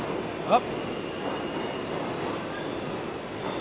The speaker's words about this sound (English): Is that a Subway? The Subway. I brought a microphone to the Subway.